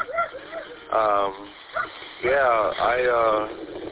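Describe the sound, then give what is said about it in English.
Dogs barking at another dog down the street, a few short bursts of harmonic barks and yips separated by brief pauses, moderately loud. “I just got home from walking my dogs, and now they're barking at, I don't know, another dog down the street, I suppose.”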